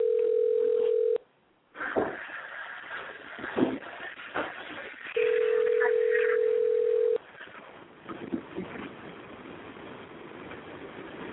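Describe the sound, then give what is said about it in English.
Telephone call being placed to voicemail: two long, steady, mid-pitched tones, one brief and one about two seconds, separated by a stretch of faint noisy line hiss. “Dialing now.”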